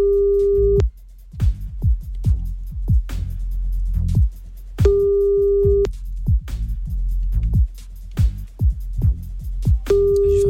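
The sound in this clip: Telephone line tone while a call is placed: a steady, mid-pitched tone sounds three times at regular intervals, the last cut short, over a busy rhythmic thumping beat that continues between the tones.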